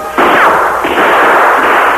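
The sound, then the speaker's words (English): Gunshots fired at an iron-plated door: loud, harsh gunfire that blurs into a sustained roar, with a fresh burst partway through and no voices. “He triggered shots at the door.”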